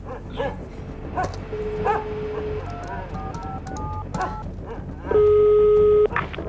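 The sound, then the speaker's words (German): A dog barks repeatedly outdoors, giving sharp, short barks and yips scattered over a busy background. A steady electronic tone sounds briefly near the end. “ich möchte Sie ganz höflich darum bitten, doch endlich dafür zu sorgen, dass Ihr Hund nicht dauernd im Freien bellt.”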